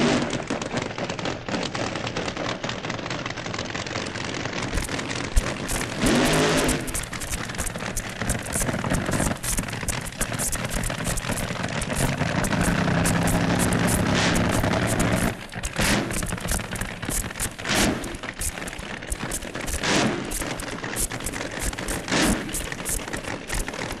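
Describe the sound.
Drag racing cars launching off the start line in a semi-final heat: a loud, dense, crackling roar that fills the whole clip and eases briefly partway through before surging again.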